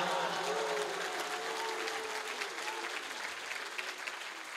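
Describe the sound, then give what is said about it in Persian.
A gathered audience claps steadily and faintly, many hands keeping a continuous patter while a voice carries on softly underneath. “اگه بخوای دست بزنی باید همه بیتشو دست بزنی.”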